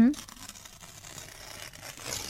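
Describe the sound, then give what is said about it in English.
A pen or pencil scratches and rustles across a sheet of paper while someone writes out a recipe. The soft, steady scratching continues for about two seconds. “Let me write them down on this paper.”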